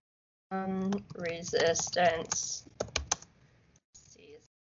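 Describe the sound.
Keyboard typing as someone writes a note: a few quick, light key clicks between stretches of voices, with more scattered taps near the end.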